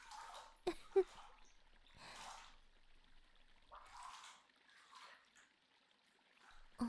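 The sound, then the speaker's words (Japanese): Hot water poured over a person's body, a few soft, splashy bursts of running water with quiet gaps between them and a few sharp clicks, fairly faint. “お湯で体を流していきます。腕も背中も胸もまんべんなくお湯にかかるようにしていきますね。”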